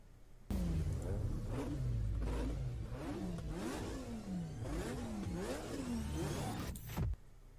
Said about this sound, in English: So it was titled Untitled Sonic Racing Game Teaser. The only thing you can make out is there are cars in it. And it's something racing.